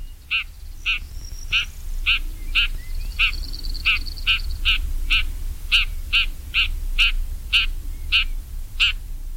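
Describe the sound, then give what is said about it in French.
Shrike calls, a series of many short, harsh chuckling cries repeated at a fairly regular pace, each brief and bright, standing out clearly over a low background rumble. “Son cri s'entend plus fréquemment, c'est un chuintement court, un cha-roc.”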